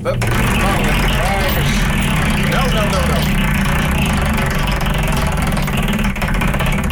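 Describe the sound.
A hand-cranked engine runs at a loud, steady idle with a constant low knocking throughout, and a voice speaks briefly over it early on.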